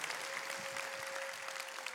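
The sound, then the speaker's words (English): Applause from a church audience welcoming a guest speaker, a steady wash of clapping that holds evenly throughout with no voices standing out. “So please give Costa Mitchell a very warm Vineyard Church North Phoenix welcome. Give it up.”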